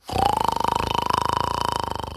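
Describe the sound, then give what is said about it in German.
A loud, drawn-out snore from a robber asleep on a sofa: one long rattling breath with a rapid fluttering buzz over a steady mid-pitched tone. “Hotzenplotz schnarchte auf seinem Sofa, als wollte er einen ganzen Eichenwald kurz und klein sägen.”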